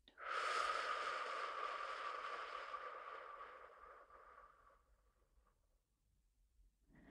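A long, breathy exhale through the mouth during a breathing exercise: one sustained airy hiss that is loud at first and slowly fades out.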